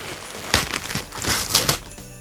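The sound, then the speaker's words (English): Crinkling and rustling as a gift package box is unwrapped, a few crisp crackling bursts of wrapping heard alone. “so I'd like you to open up the package first.”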